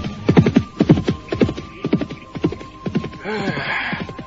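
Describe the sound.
A horse sets off at a gallop: hooves strike in a fast, even rhythm of many beats, and a neigh rises near the end over a faint steady hum.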